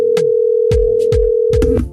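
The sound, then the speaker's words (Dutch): A telephone tone while placing a call: one steady mid-pitched tone with a few dull clicks and thumps over it, cut off just before the end. “Ja, ik ga even bellen met Bompie, kijken wat hij ervan vindt.”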